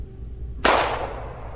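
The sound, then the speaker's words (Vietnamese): A gunshot cracks out once, a sudden loud bang that tails off into a fading rumble over a low steady background hum. “Hai phát súng vang trời nổ ra, lập tức hai người họ nằm bất động dưới đất.”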